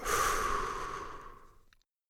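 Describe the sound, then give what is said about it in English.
A deep breath let out slowly during a relaxation exercise: one long, breathy exhale that starts loud and fades steadily over nearly two seconds. “Take a deep breath. Hold it. And let go.”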